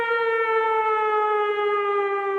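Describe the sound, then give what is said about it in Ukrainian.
An air-raid all-clear siren wails in Volyn, sounding one loud, steady, many-toned note that drifts slightly downward in pitch and holds without a break. “Відбій повітряної тривоги.”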